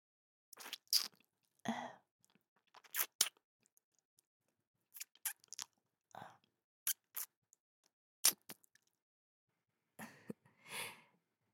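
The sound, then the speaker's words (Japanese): Wet kissing sounds with an outstretched tongue: many short, irregular lip and saliva smacks separated by silent gaps, some in quick pairs, moderately loud and alone. “こうやって キスするんだぞ。”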